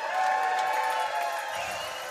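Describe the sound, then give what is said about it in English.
Party noisemakers and crowd cheering at a New Year's Eve 2013 celebration, a dense, continuous wash of buzzing, reedy tones and excited voices held at a fairly steady level. “Winding down 2013, baby. Let's hear those noisemakers.”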